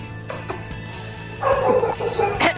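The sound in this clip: Several dogs bark in short bursts over a steady low hum. A few sharp yips come first, followed by a louder, denser run of barking.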